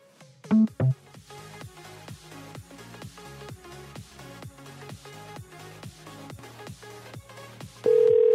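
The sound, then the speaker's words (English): Outgoing telephone call ringing: two loud beeps from dialing open it, followed by a steady, repeating rhythmic ringback pattern of faint tonal pulses, then a loud continuous tone at the end. “We're just going to make this jerk pick up now. Come on. Come on. Don't do the silent ringing.”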